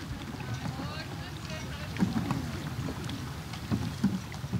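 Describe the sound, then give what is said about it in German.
Paddles dipping into lake water from a small boat, soft splashes and swishes recurring at an uneven pace over a low rumble of wind. “Die Inselabenteurer haben inzwischen ihren Paddelrhythmus so halbwegs gefunden.”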